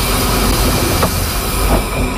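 A train runs along rails, with a loud, continuous rumbling and rushing roar and faint rattles over the track.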